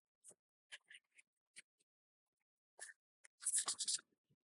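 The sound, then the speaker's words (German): Pen writing an entry in a guestbook: quiet, irregular scratchy strokes, then a denser flurry of scribbling near the end. “Und bevor wir die Sendung beenden, gibt es noch den Eintrag ins Gästebuch der Riesen.”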